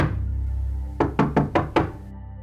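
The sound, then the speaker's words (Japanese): Knuckles rap on a door five times in a quick, even series. The knocks are sharp and moderately loud over a steady low background hum. “ノックしてみよう。”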